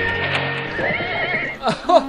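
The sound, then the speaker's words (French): A horse whinnies in a horse-racing setting, a brief high neigh with wavering pitch set against a busy background, with a couple of short sounds near the end. “c'est un jeune garçon qui s'obstine à faire courir son cheval”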